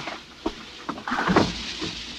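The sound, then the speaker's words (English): A door is closed in a radio drama: a few soft knocks and clicks, then a fuller thud with a brief rustle, all fairly faint. “Close the door.”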